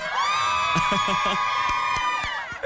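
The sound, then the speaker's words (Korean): An audience at a live show shouts and cheers on request, a sustained, loud, high-pitched wall of screaming voices that holds steady throughout before easing slightly at the end. “한번 더 소리 질러!”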